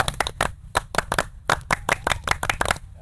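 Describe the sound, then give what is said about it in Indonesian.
Indonesian scout clap (tepuk pramuka), many sharp hand claps beaten in a patterned, syncopated rhythm that is loud and crisp. No voices accompany it. “Itu bukan salam pramuka, tapi hormat pramuka. Tepuk pramuka.”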